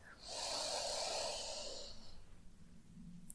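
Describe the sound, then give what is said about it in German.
A single deep inhale through the nose during a guided meditation: a long, airy rush of breath lasting about two seconds, then fading into near silence. “Atme tief durch die Nase ein.”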